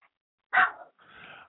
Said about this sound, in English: Live radio, guys. My dog is in.